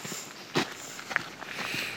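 Footsteps of people walking on through the mountain botanical garden in Hemavan, Vindelfjällen, Lapland: faint, scattered steps, a few soft impacts over a quiet outdoor hush.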